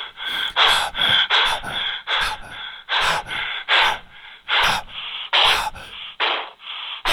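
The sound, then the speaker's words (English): Many deep exhales, each a short, breathy, hissing puff of air, repeat one after another in a quick, uneven rhythm with no talk. “Ten exhales. Was it? Yeah. Okay. I counted.”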